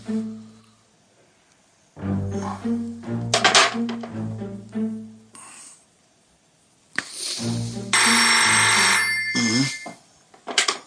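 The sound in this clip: Telephone bell ringing: one loud, bright, jangling burst of about a second and a half near the end, preceded by stretches of other tonal sounds.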